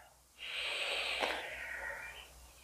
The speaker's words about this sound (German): Und dann nimm ganz bewusst einen tiefen Atemzug.